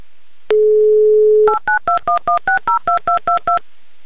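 Touch-tone telephone dialing for a call to Murmansk: a steady dial tone for about a second, then eleven quick, evenly paced key tones, each a short loud dual-pitched beep.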